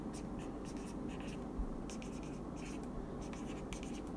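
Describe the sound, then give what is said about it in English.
Handwriting with a pen on paper produces faint, scratchy strokes in short irregular bursts over a steady low background hum. “Hold on, let me write this real quick.”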